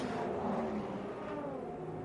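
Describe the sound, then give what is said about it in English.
Racing cars pass at speed in a dense stream, a loud, continuous engine roar that holds steady with no clear gaps between the individual cars. “Here they come past us now. Oh, that is incredible how many cars have just gone past me at pace.”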